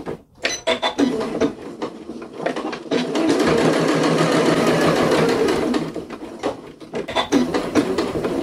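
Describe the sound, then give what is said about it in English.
A sewing machine stitches along the nose bridge of a fabric mask, its needle whirring in quick stuttering bursts. A long, steady run of stitching follows, then more short bursts. “Cut those threads, and now we want to stitch down this other side of the nose bridge.”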